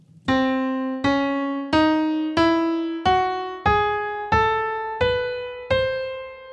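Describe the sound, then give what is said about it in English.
A mirrored palindrome scale from the score of the video game Half-Life: Alyx sounds as nine plucked, bell-like notes, each decaying before the next, stepping gradually upward in pitch at an even pace. “It's a mirrored scale, or a palindrome. Mike considers this the G-Man scale, and it sounds like this.”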